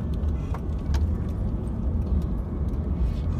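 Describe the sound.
Steady road noise from cars driving through a wildfire in British Columbia, a dense, continuous low rumble of engines and tires that holds an even level throughout with no voices.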